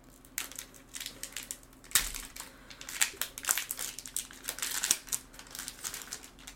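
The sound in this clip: A foil trading card pack is opened, giving a continuous run of crinkling and crackling with many sharp little snaps. It is fairly faint and there is no talk over it.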